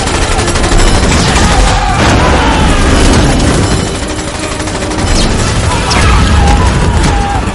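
Soldiers fire guns in a dense, loud fusillade, rapid overlapping shots and heavy booms running continuously in a fantasy action film scene.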